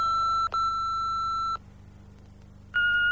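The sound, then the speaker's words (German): Electronic beeps from an answering machine: a steady tone with a brief break, then a pause and a slightly higher second tone, clear and alone over a faint low hum. “Ich hinterlasse dir in London die gleiche Nachricht, die ich gerade auf Donalds Anrufbeantworter in New York hinterlassen habe.”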